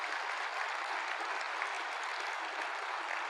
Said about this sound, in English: Thank you for that round of applause for them.